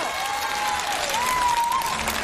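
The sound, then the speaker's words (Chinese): An audience applauds a stage stunt performance with steady, even clapping for about two seconds. A thin whistle-like tone glides above the clapping. “掌声。”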